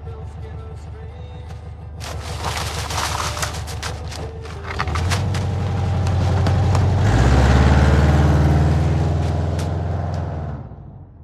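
A car drives off, its loud engine rumbling and stepping up in pitch as it accelerates, holding a steady roar before fading away at the end.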